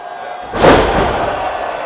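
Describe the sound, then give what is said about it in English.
A wrestler's fallout flipping body slam from the top rope lands as a single heavy thud on the ring, followed by a sustained crowd roar. “Bandido hits Dante Martin with a fallout flipping body slam from the top rope.”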